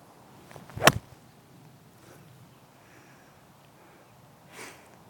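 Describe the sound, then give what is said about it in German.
A club swings and strikes a ball high on the clubface, making one brief, loud swish and crack. Near silence follows, with a faint soft noise near the end. “Den Ball habe ich ziemlich weit oben. Man sieht auch den Abdruck im Schlägerblatt. Sehr weit oben im Schläger getroffen.”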